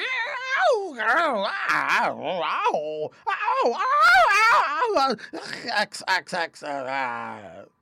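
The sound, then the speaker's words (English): A human voice imitates a dog fight, with wavering growls, sharp barks and high squeals in quick, agitated succession, rising and falling in pitch throughout. “It wasn't a very happy chorus of growls and barks and squeals. It sounded something like,”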